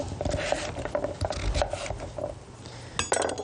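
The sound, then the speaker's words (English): A knife slices through big wedges of cooked pumpkin and potato, giving many light irregular scrapes and clinks of the blade against the cookware, moderately quiet with no talk. “So cut big wedges like that, or big strips, and then we're just going to use the knife and we're going to slice through.”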